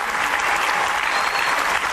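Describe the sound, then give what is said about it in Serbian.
Stormy applause and ovations from a concert audience after a performance, as the crowd calls for an encore: dense, continuous clapping from many hands, loud and unbroken throughout. “Na kraju, burni aplauzi, ovacije i na zahtev publike igra na bis.”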